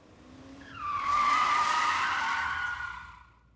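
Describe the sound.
Tires screech as a car brakes hard and skids on entering a parking lot: one sustained high squeal, about two and a half seconds long, that swells quickly, holds steady and then fades.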